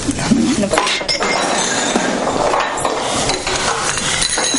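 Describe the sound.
A plate thrown from a bar counter clatters amid sharp clinks of glass and crockery, a few hard hits standing out against a busy, noisy background.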